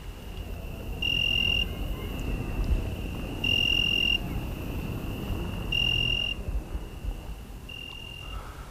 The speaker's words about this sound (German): Das Fenster, nach dem Garten zu, ist offen. Man hört die Grillen.